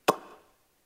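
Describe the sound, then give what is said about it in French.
The cap of an effervescent tablet tube being pulled and twisted open, giving a single sharp click that dies away quickly into silence. “Il sort de son tiroir des cachets effervescents. Oui, la journée a été rude. Le petit type dans la main droite, avec sa main gauche, il tire et dévisse le capuchon en même temps pour l'ouvrir.”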